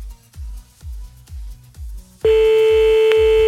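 A steady, loud telephone tone cuts in about two-thirds through as a caller is rung back. Beneath it and before it, a regular low thumping beat runs throughout.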